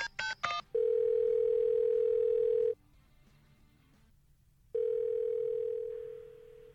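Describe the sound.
A telephone call being placed opens with a quick burst of dialing beeps. A steady ringback tone follows, sounding twice for about two seconds each with a two-second gap between, and no voices.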